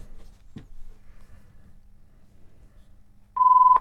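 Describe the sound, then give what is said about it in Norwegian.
Telephone tone during a bingo game: one loud, steady, high-pitched beep begins near the end, after a quiet stretch of low background rumble. “Og der ringer telefonen.”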